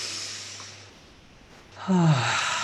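A deep breath drawn in during a guided relaxation exercise: a soft, airy rush of breath, then a louder breathy sound with a slight voiced, sigh-like edge.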